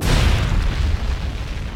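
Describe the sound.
A ship's lifeboats blown apart by an explosion during a bombing raid: a loud, sustained, deep blast rumble that stays heavy throughout and tails off only slightly at the end.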